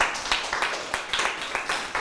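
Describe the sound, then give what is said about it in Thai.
Classmates clap in a classroom to applaud a fellow student. The clapping is a dense, continuous patter of hands with uneven peaks throughout. “เยี่ยมเลยนะครับปรบมือให้เพื่อนด้วยครับ”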